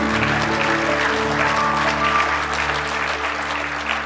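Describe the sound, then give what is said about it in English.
A church audience claps hands in a dense, steady patter that lasts throughout, with sustained musical tones held beneath it. “If you love Jesus, let me hear your hands this morning.”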